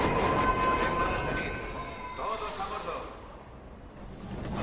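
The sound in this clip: A train pulling into a station: broad rumbling rail noise with thin, high wheel squeals early on, easing and thinning as it settles, with no clear voices.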